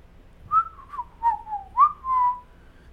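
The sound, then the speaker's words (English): A person whistles a short, clear melody of a few sustained notes. The pitch glides between them, sliding down and then back up, over a faint low background hum with no talk. “whistling the time away”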